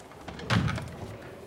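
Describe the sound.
A door is pushed shut, giving a single dull thump with a brief rattle that fades into low background noise.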